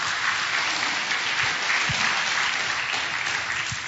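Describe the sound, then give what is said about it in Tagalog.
A church audience applauding the Lord: steady, dense clapping from many hands continues throughout. “Pwede bang palakpakan natin ang Panginoon, mga kapatid?”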